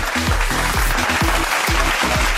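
Studio audience applause: dense, steady clapping throughout, with a repeating pattern of low, downward-sliding tones beneath it.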